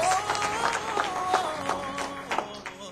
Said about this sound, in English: Oh, give the Lord another hand clap.